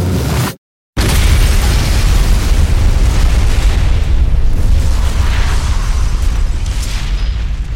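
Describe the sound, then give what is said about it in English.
Explosion of a spaceship's FTL drive fired without field containment: a short silent gap breaks off a loud blast, then a deep, dense roar and rumble holds steady and loud to the end. “Firing her FTL drive without field containment, she ripped a hole in the skin of the universe and personally dragged her enemies into hell.”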